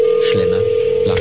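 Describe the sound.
A steady, unbroken mid-pitched telephone dial tone sounds as a call is placed, holding at an even loudness throughout while voices talk over it.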